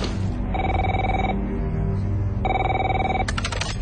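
An electronic telephone rings twice with steady, bright tonal bursts about a second long, over a loud, constant background bed.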